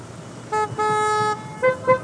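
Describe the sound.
Car horn honking during a festive car trip: four steady, bright honks, a short toot, a long sustained blast, then two quick toots, over a low rumble.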